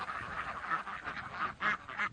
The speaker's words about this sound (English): The ducks typically patrol the vineyards between 9 in the morning and midday.